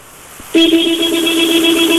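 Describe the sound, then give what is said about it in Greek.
A car horn blares in one long, loud, unbroken blast that starts after a brief quiet moment and holds a steady pitch to the end. “Θέλω κόρνα.”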